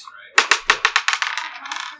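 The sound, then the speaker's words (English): Six-sided die rolled during a board game, clattering on a hard surface in a quick run of sharp bounces that come faster and grow fainter as it settles. “Somebody roll a d6.”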